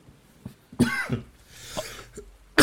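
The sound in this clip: A person coughs after choking on something swallowed the wrong way, a few harsh, rasping bursts with throat-clearing between them, loud and without speech.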